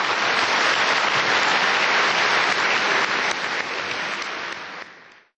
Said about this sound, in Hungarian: Kérem, szerető tapsukkal fogadják.